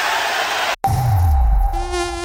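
A mosquito's thin, steady, high whine drones on almost without pause, broken only by a very short dropout early on, while a low rushing sound sweeps downward beneath it.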